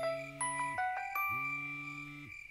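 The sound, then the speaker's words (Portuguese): A mobile phone rings at half past nine at night with a faint electronic ringtone of chime-like notes that step up and down in pitch in a short melodic pattern. “21h30, o celular tocou.”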